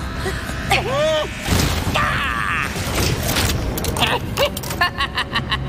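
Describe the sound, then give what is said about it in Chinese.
A modified seismograph runs on and cannot be switched off, giving loud mechanical grinding, creaking and groaning with sliding tones. Voices cry out over the machinery, and rapid rhythmic pulsing closes the passage. “这个改装版的地震仪只要启动，就不会结束。”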